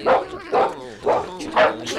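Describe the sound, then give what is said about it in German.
A farm dog barks four times in a steady rhythm, each bark short and full-bodied, with brief pauses between them. “Du bist ja ein braver Hund.”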